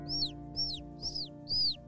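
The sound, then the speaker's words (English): Baby birds chirping outside: four thin, high chirps, evenly spaced and fairly faint, over a low steady hum. “the baby birds are chirping outside”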